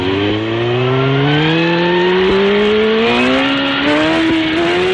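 A car accelerating hard at speed, a loud, continuous engine drone that climbs steadily in pitch as it gains speed.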